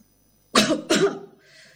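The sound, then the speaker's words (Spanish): A voice imitates a coughing turtle with two harsh, throaty cough bursts in quick succession, followed by a faint trailing rasp. “Tosía la tortuga.”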